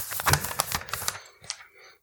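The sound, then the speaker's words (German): Paper crackles as an envelope is torn open to announce an award winner, a dense burst of sharp rustling crackles lasting about a second, followed by a few softer, scattered crinkles. “Ich mach den Umschlag auf. Moment.”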